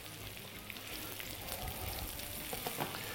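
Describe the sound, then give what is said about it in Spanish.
Mushrooms sizzle as they fry with ham in a pan: a steady, fairly quiet hiss of fine crackling that runs unbroken throughout, with no voices. “Bueno, venga, vamos a cocinar un poquito las setas así. Las voy a cocinar 5 minutos.”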